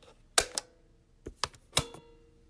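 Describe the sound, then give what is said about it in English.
Cassette tape being plugged into a playback system, heard as a few sharp plastic clicks and clacks separated by quiet gaps. “Avi, is this a cassette? Yeah, it's the only thing they can't trace. Hmm. Okay, listeners, I'm plugging the tape into our system here.”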